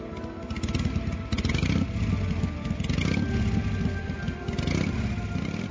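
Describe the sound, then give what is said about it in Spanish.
A motorcycle speeding away with its engine running hard: a loud, dense drone with rapid pulsing that holds steady throughout. “Álvaro avanzó en su moto lo más rápido que pudo”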